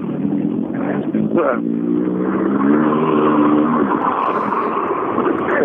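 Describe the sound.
A car engine drones and revs as the car drives off, its hum climbing and holding steady under people talking.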